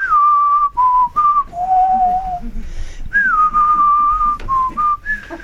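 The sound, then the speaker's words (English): A person whistles a tune alone in several clear, mid-high melodic phrases of varying length, separated by short pauses. “the Philistine's like, "Why are you whistling?" I don't know, it seemed appropriate for the movie.”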